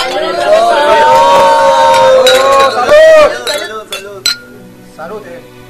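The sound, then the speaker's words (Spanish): Glasses clink together in a toast, with bright ringing tones and a dense run of chinks among a chattering crowd. The clinks fade into a few scattered taps and soft voices. “Levanten sus copas. Y este brindis es a la salud del profesor.”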